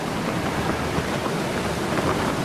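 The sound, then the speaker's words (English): Strong wind of a blizzard at Port Lockroy: a dense, steady, loud roar of rushing air that barely changes across the whole clip, with no voices. “A strong wind has brought blizzard conditions to Port Lockroy.”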